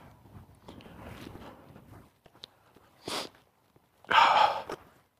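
Faint footsteps of a person walking outdoors in the sun, soft scuffing steps in the first half, followed by two louder breathy exhales.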